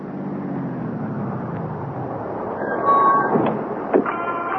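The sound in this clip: A taxi pulls up: a low engine rumble sinks in pitch as the car slows, then a few brief higher-pitched tones follow near the end.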